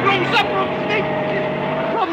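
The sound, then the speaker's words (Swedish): A car engine drones steadily as the car is put in reverse and accelerated, a sustained hum with people talking over it. “Lägg i backen och trampa på gasen innan det blir folksamling. Nå, trampa på gasen nu så vi kommer härifrån.”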